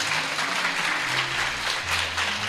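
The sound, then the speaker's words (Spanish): Sustained applause from an audience of schoolchildren at a school radio event, dense steady clapping that holds at an even loudness from start to end. “¿quién se atreve a pedir algo al público? Venga. Un aplauso largo.”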